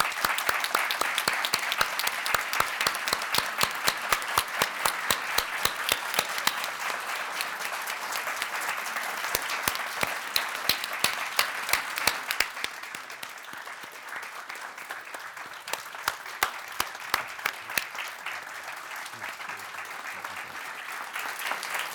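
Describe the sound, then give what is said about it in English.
Standing ovation from an audience at a film festival forum in Cleveland: dense, sustained clapping from many hands for over twenty seconds, thinning somewhat partway through while staying steady. “For the benefit of our listening audience, I'll say that that is the sound of a standing ovation.”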